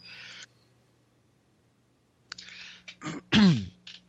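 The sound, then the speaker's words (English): Rough, throaty coughing from a man chatting casually. A brief breathy burst is followed by a quiet pause, then a few harsh coughing bursts build to the loudest at the end, with no speech. “I had a cough.”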